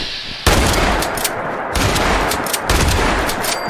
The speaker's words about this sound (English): few more shotgun shots to the face, and these guys should be done, hopefully.